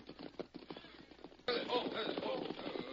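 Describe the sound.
Hoofbeats of horses on a trail: scattered, faint clops at first, then about halfway through a sudden louder, dense drumming of galloping hooves takes over and continues to the end.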